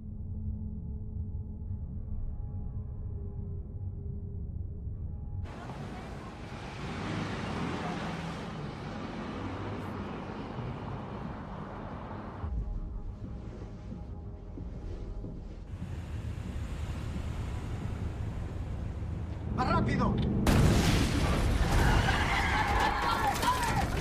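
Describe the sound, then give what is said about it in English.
Cars driving in a film scene give a steady, rushing roar of engines and wind-like noise that swells in the middle, then a loud, harsh burst of noise near the end. “Here is a wordless clip of some sort of cars driving, and then there's like a big noise at the end.”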